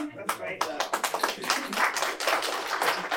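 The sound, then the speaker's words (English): Audience clapping after a question starts with a few sharp, separate claps, then thickens into a denser patter of hands that stays moderately quiet. “You don't have to clap after the question.”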